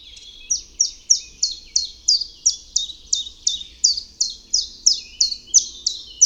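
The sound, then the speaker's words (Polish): Common chiffchaff song: a long, steady series of sharp, high chirping notes repeated at an even, unhurried pace, loud and clear, seeming to alternate between two slightly different pitches. “Pierwiosnek, jak głosi jego nazwa, jest jednym z pierwszych ptaków leśnych pojawiających się u nas na wiosnę. Przylatuje pod koniec marca, a jego piosenkę usłyszeć można nawet w październiku.”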